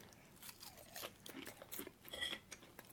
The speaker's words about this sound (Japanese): もうちょっと唐揚げを食べさせていただきます。